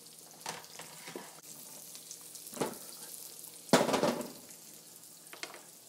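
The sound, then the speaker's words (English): Walnuts and garlic braise briefly in a wok with a faint, steady sizzle, broken by a few louder bursts of frying and stirring. “So I'm just going to braise these walnuts just for a very short period of time with garlic.”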